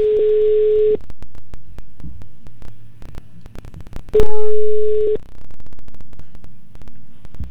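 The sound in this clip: A telephone line tone rings as a call is placed: two long, steady tones of about a second each, separated by a gap of roughly three seconds, over a constant low hum with soft rhythmic pulsing.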